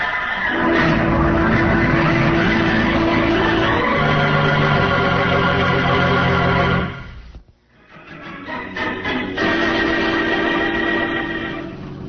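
Car driving through the country as a radio drama effect, a loud steady engine drone that shifts in pitch around four seconds, drops out briefly past seven seconds, then builds back up.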